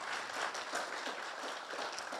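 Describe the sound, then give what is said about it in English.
Faint audience clapping during a community gathering, in response to thanks given to military service members. Many overlapping claps blend into an even, continuous patter that stays quiet throughout. “Oh, you can clap for that.”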